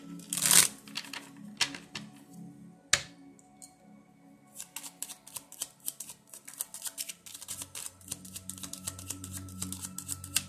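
A deck of playing cards being shuffled: faint, rapid, papery flicks and clicks in dense runs. A few isolated knocks come first, then a long stretch of quick, uneven riffling.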